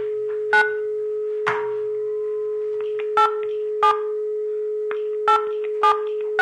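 A telephone being dialed to place a call: a steady low dial tone hums throughout while several short keypad beeps sound at irregular intervals.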